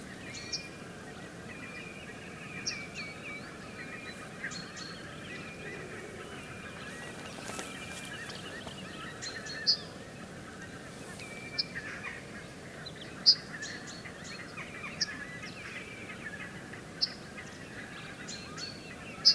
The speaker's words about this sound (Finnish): Se on hauska tuo nenäsointinen pikkulokin ääni.